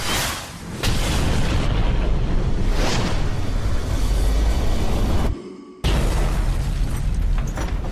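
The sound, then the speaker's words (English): Spacecraft retro rockets fire after entering Earth's atmosphere, a loud, dense roar that holds steady, drops out briefly near the end, then surges back. “Retro rockets are next in 3 seconds! 2, 1!”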